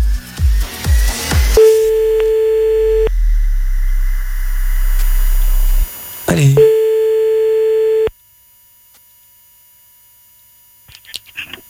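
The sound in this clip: A French telephone ringback tone as a call is placed: a few short low clicks, then two steady mid-pitched beeps about one and a half seconds long, separated by a long gap, followed by near silence.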